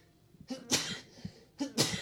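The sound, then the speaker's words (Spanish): Two sneezes in quick succession, each a short breathy burst, quiet and with no talk around them. “siempre estornudo 2 veces, para como que si no funcionó la primera, vayan a la segunda.”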